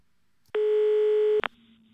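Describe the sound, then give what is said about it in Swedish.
A single ringing tone heard while calling someone on the telephone: one steady mid-pitched beep lasting under a second, then a sharp click on the line and quiet. “Jag ska ringa henne. Får se om hon kanske har glömt bort. Får jag ringa och kolla då?”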